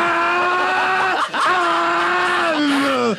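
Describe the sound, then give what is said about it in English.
A 900 horsepower Chevy Celebrity station wagon roars and squeals its tires, a loud, continuous screeching whine with steady tones that dip briefly twice. “This year, the Chevy's offering the Indy Celebrity, a 900 horsepower celebrity wagon. So I'm like, gosh, George, this thing's really got some pickup,”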